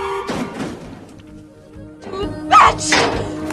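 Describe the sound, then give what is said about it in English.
A badly wounded woman's body falls to the floor with a heavy, dull thud. A few softer knocks and scuffs sit around it, and the loudest impact comes near the end. “badly wounded, falls to the floor.”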